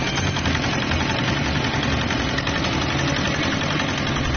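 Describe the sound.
A fishing boat's engine idling on the water: a steady, loud, rough rumble with a fine knocking texture that stays unchanged throughout, with no voices.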